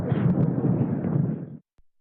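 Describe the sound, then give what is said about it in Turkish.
A volcanic eruption of Anak Krakatau in Indonesia roars as one deep, loud, sustained blast of rumbling noise that holds for about a second and a half and then cuts off abruptly into silence. “Ve bu görüntü, bakın, muazzam bir patlama. Endonezya'dan geldi efendim. Endonezya'da bulunan Anak Krakatau yanardağında patlama meydana geldi.”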